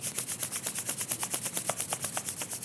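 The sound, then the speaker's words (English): Palms rub briskly together during a self-massage routine: many quick, even strokes in a steady rhythm, a soft dry swishing with no voices. “And bring the hands forward, rub the palms once more.”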